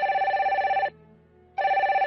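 A telephone rings as a call is placed. The bright electronic trill pulses steadily, stops for a brief silent gap, then starts again.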